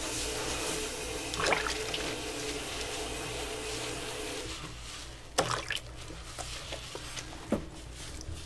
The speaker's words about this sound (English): Time to wash all that hair on your head.